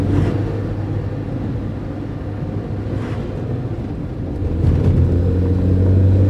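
A car engine rumbles as the car drives off, a steady low drone that grows slightly louder toward the end, with no talk.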